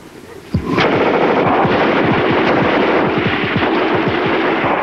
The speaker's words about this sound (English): The squad lets loose from their line on the ridge, scattering the defenseless Germans. Shots flash as shells fly from rifle breaches.